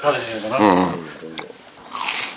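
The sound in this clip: A crisp, crunchy bite into a supermarket-style deli side dish packed with squid, then a short burst of chewing noise; people talk just before it.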